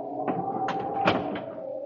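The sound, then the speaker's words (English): A door is shut in a house, heard as a few short knocking bursts over a steady low hum. “Hen, shut that door.”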